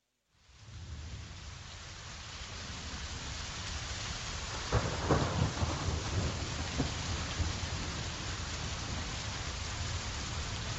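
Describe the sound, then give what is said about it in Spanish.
Torrential rain pours steadily through a thunderstorm, with a rumble of thunder swelling louder around the middle before the downpour continues alone, no voices. “Tormenta. Nubarrones llegan de forma inesperada a nuestra vida. Lluvias torrenciales que cancelan nuestros planes.”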